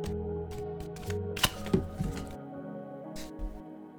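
Tarot cards being shuffled, with one card flying out of the deck: a few crisp, papery snaps and riffles stand out over a steady, droning tonal background.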